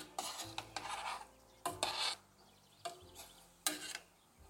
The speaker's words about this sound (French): Et on peut venir remuer un peu le sirop avec les poires dedans.